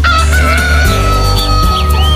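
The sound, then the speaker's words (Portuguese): A rooster crows loudly over a steady low-pitched background, its drawn-out call carrying through the whole short stretch with no talking. “O galo cantou.”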